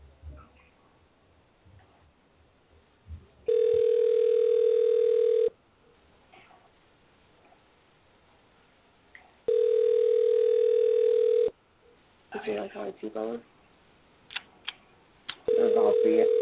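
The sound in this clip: A phone ringback tone while calling someone: two long, steady, evenly spaced rings, then a third starting at the end, with a voice talking quietly in the gaps between rings.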